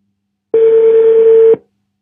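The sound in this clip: Telephone ringing tone while a call is placed: one steady, loud, mid-pitched tone lasting about a second, heard alone and followed by silence.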